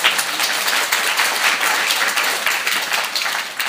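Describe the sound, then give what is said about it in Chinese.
Audience applause for a group of young singers at a church gathering: loud, dense clapping that holds steady for nearly four seconds and eases slightly at the end, with no talk over it. “对，我们给他们一个掌声好不好？”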